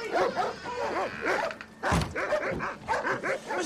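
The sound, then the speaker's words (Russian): A furious dog barks in a house, a rapid run of many sharp, loud barks with short pauses between groups. “Один псина вообще бешеный.”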